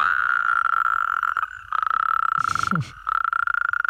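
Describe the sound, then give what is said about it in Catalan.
Toads and frogs croak at dusk in a dense, continuous high trilling chorus, broken by a few brief gaps, with a short lower sound partway through. “Pensa que aquests, els gripaus, granotes, molts amfibis, canten a les últimes hores del dia i ja a entrada la nit.”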